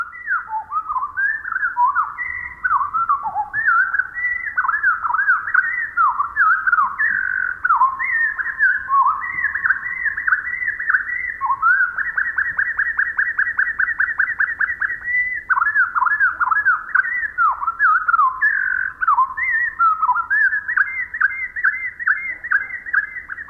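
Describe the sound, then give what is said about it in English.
Pacific wren song slowed to quarter speed becomes a long run of clear, warbling whistled notes that swoop up and down, broken midway by a rapid buzzy trill, then continuing in looping phrases with no pauses. “The bird, with its speeded-up time sense, must feel as if it had sung the equivalent of an operatic aria. Let's listen again, but this time with the song slowed down to 1/4 speed.”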